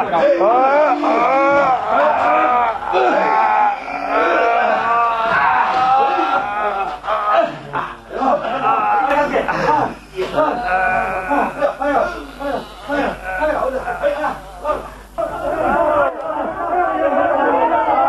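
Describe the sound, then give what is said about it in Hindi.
Crowd shouting slogans in loud, drawn-out unison chants at a work site where men are moving a generator, with many voices overlapping and the roar staying dense throughout. “अरे अब ये नारे क्यों लगने लगे साहब? लगता है चीफ साहब आ गए।”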